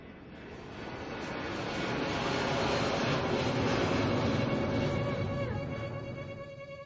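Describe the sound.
Broad, steady roar of an airplane on a night flight, with no voices. It swells gradually, holds loudest through the middle and eases slightly toward the end.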